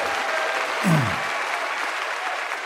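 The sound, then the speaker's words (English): Audience applause welcomes a guest: dense, steady clapping runs throughout at an even loudness, with no talk over it. “Yeah, let's hear it for Alvin.”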